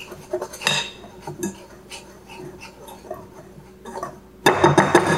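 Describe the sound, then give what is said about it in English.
A whisk works through dry baking ingredients, including baking powder and salt for chocolate chip cookie dough, in a bowl. Rapid, irregular metallic clinks and light scrapes are heard, and a louder burst of scraping comes near the end, with no talk. “And we are going to whisk.”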